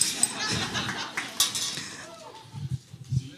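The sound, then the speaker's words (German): A spoon stirs crumb tea (Krümeltee) in a cup, giving a few light metallic clinks and scraping over background noise while people talk. “Und zwar werde ich das eine umrühren.”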